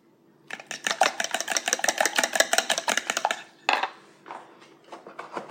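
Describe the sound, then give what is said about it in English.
A whisk beating a milk mixture in a bowl for shortbread, with fast, steady, rhythmic clicking for about three seconds, then a pause and a few shorter, softer bursts of stirring. “And then we're just going to whisk it together.”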